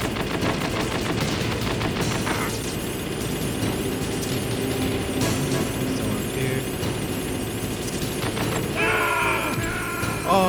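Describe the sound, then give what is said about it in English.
Grenade explosions mixed with gunfire in a video game firefight as grenades are thrown everywhere. The result is a dense, loud, continuous barrage of blasts and shots with no quiet gaps. “Just throwing fucking grenades everywhere. You get a grenade. You get a grenade.”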